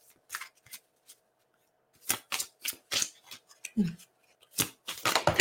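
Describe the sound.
Tarot cards are shuffled in sharp bursts of riffling and snapping paper. Several clusters of crisp flicks are separated by short pauses, and the sound grows denser and louder toward the end.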